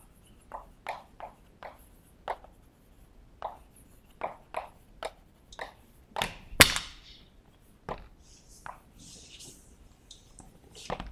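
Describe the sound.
Chalk drawing on a board during a mathematics lecture gives many faint, sharp taps and clicks at irregular intervals, with a few louder strikes in the middle and no talk.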